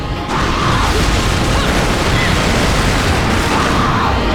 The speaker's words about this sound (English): Ah, he's shooting missiles!